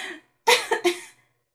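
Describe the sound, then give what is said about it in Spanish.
Coughing from a single person: a quick burst of three short, dry coughs that follow closely one after another, then fall silent. “insistió en su tos”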